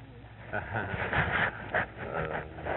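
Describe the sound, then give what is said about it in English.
A small black dog whimpers and pants, giving a few short high whines over soft breathing while people talk nearby. “little dog. Is that it there? That's it. That little black one come in.”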